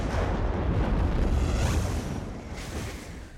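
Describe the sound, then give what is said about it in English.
Fireballs coming down in a film scene from The Mummy (1999): a dense, loud roaring rumble like blasts and rushing fire, easing off slightly toward the end with a brief renewed surge. “Oh, I remember this being a hectic scene to shoot with these fireballs coming down.”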